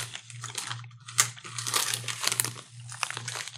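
Plastic bag of sweet ginger chili snack sticks crinkling as it is handled, with repeated crackling bursts, some sharper than others, over a low steady hum.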